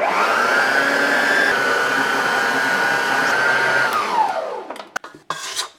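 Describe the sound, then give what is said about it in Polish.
An electric mixer whisks gingerbread dough as butter and gingerbread spice are poured in. Its motor gives a loud, steady whirring whine that holds, then winds down in pitch and stops, followed by a few light clinks. “W trakcie ubijania wszystkich składników będę wlewać powolutku masło. i przyprawę do piernika. Czyli tak, wlewamy trochę i włączam mikser.”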